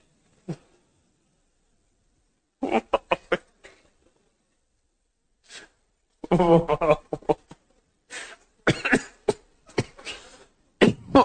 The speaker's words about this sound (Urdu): اتنی ہنسی ہوئی کہ پھیپڑے برداشت نہ کر سکے, کھانسی ہو گئی.